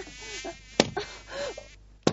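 A housefly buzzes with a wavering whine that rises and falls, broken by two sharp smacks.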